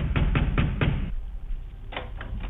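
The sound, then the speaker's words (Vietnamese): Heavy pounding on a door by ghosts: a quick run of four loud, dull thuds, a short pause, then a few more blows in the same rapid rhythm, over a constant low rumble. “Ở bên ngoài, tiếng đám cô hồn dã quỷ đập cửa thình thình,”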